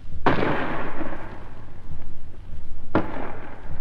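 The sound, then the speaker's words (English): Two heavy booms from a 5.5-inch gun firing at point-blank range, about 250 yards, at a fort wall, followed by its shell bursting on the wall. The blasts are loud, about 2.7 seconds apart, and each trails off in a rumbling decay. “First, a 5.5 gun fired at the wall of the fort for an hour or more at point-blank range, about 250 yards. The first bang you heard was the gun firing, and the second was the shell bursting on the wall.”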